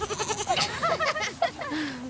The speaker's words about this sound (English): we've got goats just kind of walking around us while we're hanging out and doing some yoga.